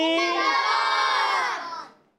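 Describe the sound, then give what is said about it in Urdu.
Children shout the Dawat-e-Islami slogan in chorus as one loud, sustained cry that holds for under two seconds and then tails away. “ہمیں دعا میں یاد رکھنا ہے اور نعرہ لگانا ہے دعوت اسلامی”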